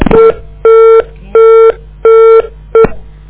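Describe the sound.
Telephone dialing tones ring out as a call to an interview guest is placed again: five clear, evenly spaced electronic beeps, each about a third of a second long, the last one shorter, loud and alone with no voices.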